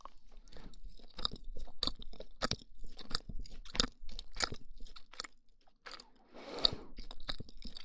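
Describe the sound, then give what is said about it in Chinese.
Close, soft chewing of pumpkin toast, with many moist bites and light crunches in an uneven rhythm. The mouth sounds are fairly quiet, with no talking. “我发现这个麦克风录吃东西的声音，真的比那种双耳麦克风好听。”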